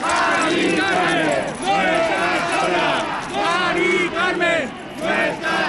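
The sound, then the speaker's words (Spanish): Night-time protest crowd in Spain chanting over the housing crisis. Loud, rhythmic shouted phrases repeat with short pauses between them as many voices chant in unison. “Lo han escuchado, este es el sonido de la noche, el de la indignación ante la crisis de la vivienda.”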